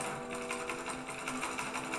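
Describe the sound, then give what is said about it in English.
A sewing machine used for dressmaking runs steadily, a fast rhythmic mechanical whir with regular stitching pulses and a droning hum, and no voices. “I then saved for a better sewing machine powered by pellets.”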